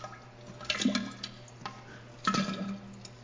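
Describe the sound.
A toilet flush comes through as two faint rushing bursts of water, the second about a second and a half after the first, over a low steady hum.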